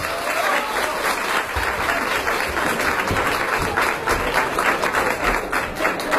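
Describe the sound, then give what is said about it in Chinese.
Sustained applause from a live crosstalk comedy audience: dense, steady clapping that stays loud and unbroken for the whole stretch. “感谢你各位热烈的掌声。”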